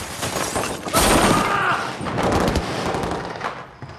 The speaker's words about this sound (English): the figure runs back, firing a machine gun behind him.